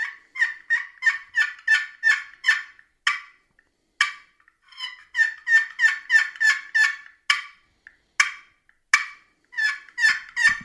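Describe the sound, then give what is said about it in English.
Yelping and cutting on an antique wooden scratch-box turkey call, a small hollow box struck across a hand-held peg. Many sharp, raspy yelps come in quick rhythmic runs, broken by short pauses, with nothing else heard. “That was yelping and cutting that I was doing there. You can almost hear the hollowness in that box.”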